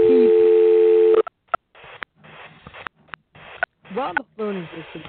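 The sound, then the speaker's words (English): A telephone dial tone holds steady for about a second, then breaks into a series of short clipped tones and clicks as the phone is dialed. Brief voice-like sounds come in near the end. “His assistant dials his phone, and while the phone is basically dialing,”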